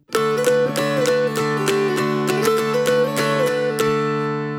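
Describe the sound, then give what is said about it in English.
The folk tune Old Joe Clark is plucked on a mountain dulcimer in the Ionian major scale, with a lively run of many strummed notes over steady ringing drone strings. “Now, if Old Joe Clark had a more common major scale called Ionian, it might sound like this.”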